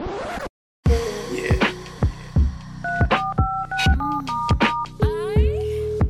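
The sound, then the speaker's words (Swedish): Telephone dialing tones ring out for a call-in hotline: a quick run of short touch-tone beeps mixed with sharp clicks, set in an uneven rhythm after a brief opening burst and a moment of silence. “Vi kommer nu alltså att ringa er och svara på era frågor.”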